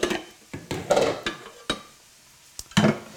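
A small cooking pot is handled while soup is being started. Many sharp metallic clanks and knocks come at irregular intervals, some louder than others, with quiet gaps between them and no talk.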